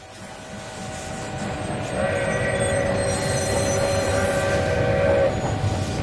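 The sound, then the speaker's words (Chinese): An early twentieth-century train departs a railway station with a loud, steady rumble of wheels and carriages. A sustained horn or whistle tone joins near the second second, holds over the rumble, then cuts off while the rolling noise continues. “20世纪初，一辆火车从长辛店火车站驶出。”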